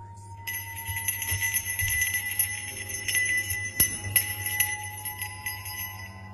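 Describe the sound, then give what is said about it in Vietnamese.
A small bell hanging over a household altar rings at night. Its bright, layered ringing tones hold steadily for several seconds, with faint tinkles now and then. “ông Cập bị đánh thức bởi tiếng leng keng như là tiếng chuông.”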